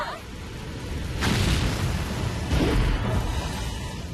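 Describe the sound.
A launch roar follows a countdown: broad rushing noise swells in two surges over a continuous hiss, each burst rising and then fading.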